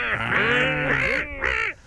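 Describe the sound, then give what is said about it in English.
Seagull calling, a long harsh squawk followed after a short pause by a briefer second cry. “Seagull. Oh, yeah, that was a bit of a gull, wasn't it?”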